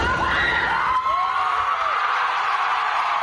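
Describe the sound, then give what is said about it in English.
Supporters outside a courthouse in suburban Boston cheer a murder-retrial acquittal, a loud continuous crowd roar with whoops and shouts. “supporters of Karen Reed cheered her acquittal in her retrial on charges of second-degree murder.”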